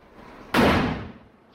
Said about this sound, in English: The door closes again